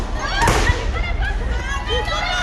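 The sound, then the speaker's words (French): Police fire tear gas grenades at a street protest of high school students, producing a sharp pop and a dull thud early on under voices and crowd noise. “pour répliquer, tirent des grenades lacrymogènes.”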